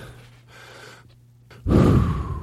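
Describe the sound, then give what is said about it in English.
Someone takes a deep breath: a soft, airy inhalation is followed by a sudden, louder, breathy exhale that lingers to the end. “Hold on. Let me take a deep breath.”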